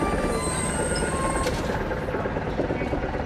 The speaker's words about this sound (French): Comme les autres hommes, Grigory monte dans ce train direction Mykolaïv, à 1 heure de route du front ukrainien.